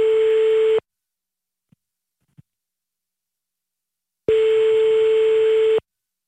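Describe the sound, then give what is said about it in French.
Ringback tone on an outgoing telephone call: two steady, buzzy mid-pitched rings, the second about a second and a half long, separated by a long silence broken only by two faint clicks. “on va lui passer un petit coup de téléphone, c'est parti.”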